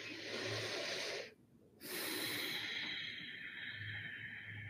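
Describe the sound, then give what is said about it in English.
A deep breath taken during a guided meditation: a long, breathy inhale, a short silent pause, then a long, steady exhale, soft and unaccompanied. “Taking a nice deep breath.”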